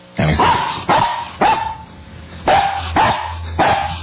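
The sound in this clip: A dog barks as a phone carrier alert tone: a series of sharp, loud barks in quick bursts, with a short pause partway through, repeating steadily with no other sound between them.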